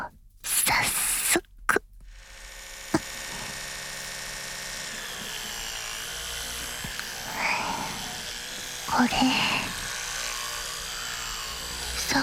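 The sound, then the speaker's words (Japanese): Buzzing of an electric toothbrush: a steady, even motor drone at a constant pitch that runs throughout, with a few louder bursts at the start. “私が使った電動歯ブラシです。”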